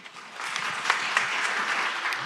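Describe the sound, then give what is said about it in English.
Applause fills the hall from a crowd at a public meeting where ministers take audience questions. The dense, steady clapping holds for about two seconds, with no voices standing out above it. “Cheers breaking out several times during audience questions”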